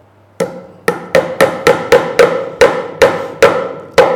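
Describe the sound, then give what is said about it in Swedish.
Nails are hammered in eleven sharp, ringing blows, loud and alone. The strikes come in a steady but slightly uneven rhythm, with short pauses between some of them. “Spika inte igenom nu. Ja, men... Så långa är väl inte spikarna trots allt?”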